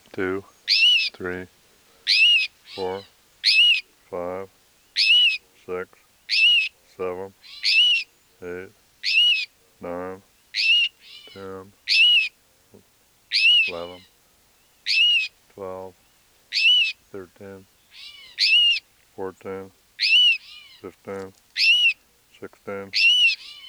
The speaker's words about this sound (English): Here are cries and alarm notes of two rufous-sided towhees, and probably near their nest. This is the female.